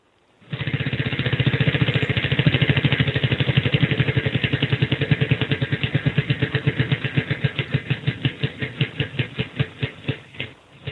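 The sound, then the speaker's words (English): A prize wheel spun during a game segment: a loud, rapid ticking clatter that holds steady, then slows as the clicks spread apart toward the stop. “let's spin the wheel, see what you want.”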